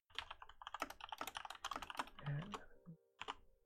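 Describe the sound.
Rapid typing on a computer keyboard, many quick clicks in an uneven flurry that slows toward the middle, then a brief pause before a last few keystrokes.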